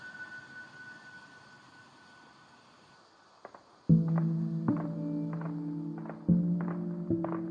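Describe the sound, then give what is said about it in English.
Horns blare from captured military vehicles seized by the Taliban. A low hum and a couple of faint clicks come first. Then several sustained, steady-pitched horn blasts begin and overlap in a layered chorus that stays loud to the end. “the situation here is very quiet now, and you can hear the horns of the military cars taken by the Taliban.”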